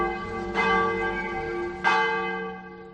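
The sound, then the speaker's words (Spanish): Church bell ringing from a parish church in the province of Burgos. Two distinct strikes, each with a bright metallic attack, are followed by a long, sustained humming resonance that overlaps from one strike to the next. “a la Diputación de Burgos y al Arzobispado porque fabricar dos campanas nuevas podría costar entre 7.000 y 8.000 euros. Pero más allá del dinero, lo que buscan es devolverle este sonido a su iglesia.”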